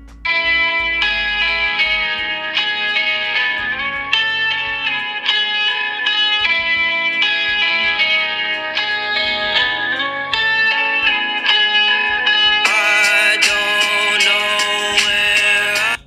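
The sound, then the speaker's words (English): A recorded song opens with a guitar-led intro, loud and steady, with sustained, layered chords and an effects-heavy tone. The texture grows fuller and brighter toward the end. “Really good song. I suggest you guys go check it out. I loved that guitar in the beginning.”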